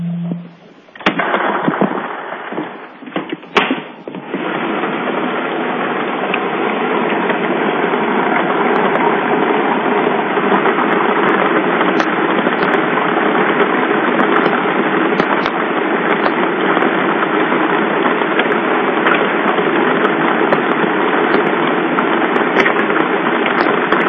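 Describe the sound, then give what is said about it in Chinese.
A lottery drawing machine starts up for a China Welfare Lottery 3D draw. A few sharp clatters come first, then a loud, steady whirring and rattling drone runs unbroken to the end. “好的，马上为您启动摇奖机。”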